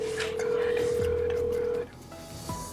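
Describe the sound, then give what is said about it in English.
A telephone number being dialed: a steady held tone, then a few short keypad beeps, with voices faintly underneath. “I think we gotta just call the number.”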